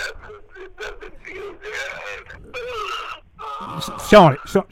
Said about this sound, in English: stop crying. Stop the whining.